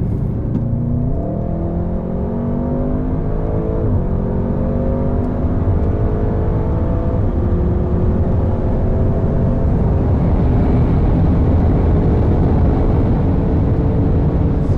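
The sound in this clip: A car accelerates at full throttle with full torque on an unrestricted motorway stretch. The engine tone climbs steadily under a constant loud roar of road and wind noise, and nobody speaks.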